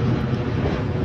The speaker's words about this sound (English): That sound you hear there is the airplane on runway 12 going around.